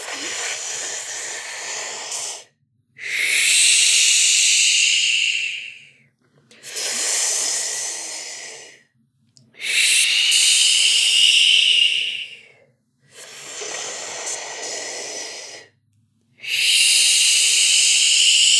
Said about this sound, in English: Inhaling through the mouth, always begin.